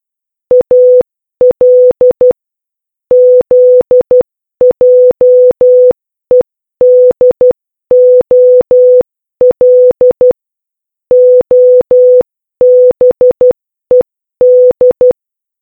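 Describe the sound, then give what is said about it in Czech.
Morse code telegraph beeps tap out a short Czech sentence. Many short and long pulses of one steady mid-pitched tone fall in rhythmic groups separated by brief pauses, running unbroken with no other sound. “a když jste chtěli vyťukat třeba větu Al snědl oběd, znělo to takhle.”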